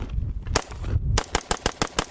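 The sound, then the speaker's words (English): An AR-15 rifle fires in semi-automatic mode. A single loud, sharp shot is followed by a pause, then a rapid, evenly spaced string of cracking shots. “here's an AR-15 being fired semi-automatic”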